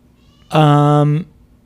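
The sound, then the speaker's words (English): A house cat gives a single loud, drawn-out meow of under a second, holding a steady pitch with strong harmonics, heard alone over faint low background noise. “What was that? That's my cat.”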